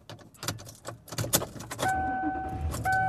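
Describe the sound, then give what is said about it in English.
Car keys jangle and click as they go into the ignition, a quick run of sharp metallic rattles, followed by a steady two-note electronic chime that pauses briefly and then sounds again. “I could not get my key in the ignition there for a minute.”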